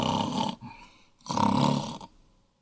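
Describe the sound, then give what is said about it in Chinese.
Snoring from many exhausted sleepers bedded down to rest in a valley camp after a battle: two long, rough, rasping snores, each about half a second or more, with a quieter breathy gap between them. “没多长时间就听见鼾声四起呀”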